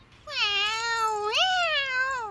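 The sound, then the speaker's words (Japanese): A cat meowing in one long, drawn-out, fairly loud call whose pitch lifts partway through, heard alone. “お前は猫の分際で俺に同情か。”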